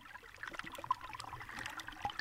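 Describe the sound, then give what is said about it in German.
Sea water heard through an underwater microphone dipped into the sea from a small rock: faint, dense crackling and popping over a steady soft hiss, with no clear rhythm. “Daran musste ich denken, als ich dort von einem kleinen Felsen aus mein Unterwassermikrofon ins Meer tunkte und nach Norden schaute.”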